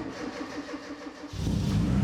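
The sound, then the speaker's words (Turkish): A rebuilt Morgan car engine catching on the first crank after reassembly: a short stretch of rhythmic starter cranking, then the engine fires about midway and settles into a loud, steady low rumble. “Bir otomobili dağıttıktan sonra toplayınca ilk marşta çalışması çok önemlidir. Ve işte başlıyoruz. İyi bir başlangıç.”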